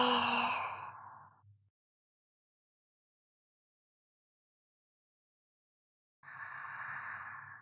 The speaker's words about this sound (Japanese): 深呼吸をしていると、吸って、吐いて